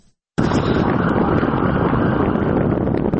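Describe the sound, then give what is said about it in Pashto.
Hot, dusty wind blows near Lashkar Gah, buffeting the microphone in a loud, continuous roar of low rumble and broad hiss that swells and churns without a break. “باد او دوړې ګرم هوا او د لشکرګاه سره په نږدې سیمو کې د ډزو د ژغونو پرته بل څه نسته”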